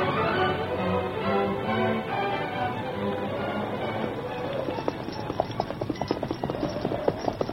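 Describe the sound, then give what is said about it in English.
Ponies' hooves clip-clop as the animals are led and ridden in a hurry. Many quick, uneven hoof beats grow clearer in the second half over a continuous rushing background. “The ponies have slowed us down a bit”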